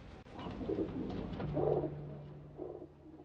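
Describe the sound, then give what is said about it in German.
City pigeons cooing: a few soft, low, throaty coo phrases rise out of a quiet background, with a faint steady hum underneath and no talking. “Das hat die Tauben aber nicht sehr beeindruckt. Sie sind schmutzige Großstadttauben geblieben.”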